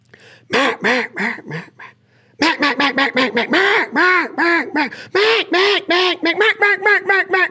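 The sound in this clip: A person imitates mallard duck calls with the voice alone, no call, in loud nasal quacks that shift in pitch and tone. A short run of quacks is followed by a brief pause, then a long rapid series of many more.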